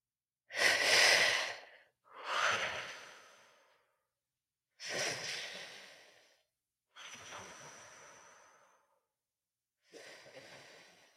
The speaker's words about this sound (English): And when you're ready, let's begin the breath together.